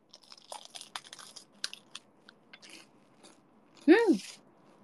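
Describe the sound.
Someone bites into a curry-coloured, limited-edition bread roll: a series of faint, crisp crunches and crackles, then a short voiced hum near the end.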